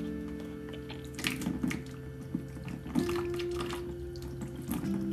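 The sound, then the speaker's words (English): Tap water runs faintly as a teaspoon is rinsed in a home with makeshift plumbing. A few soft knocks and splashes sit over a steady low hum, with no talking. “let me rinse off my teaspoon”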